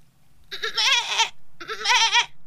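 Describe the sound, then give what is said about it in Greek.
A person imitates a baby goat bleating for its mother: two loud, wavering, quavering bleats, each about three-quarters of a second long, separated by a short pause, with nothing else heard. “Δώσε πρώτα ένα μικρό κατσικάκι που φωνάζει τη μαμά και απάντα σαν μαμά ότι τύπου εδώ είμαι.”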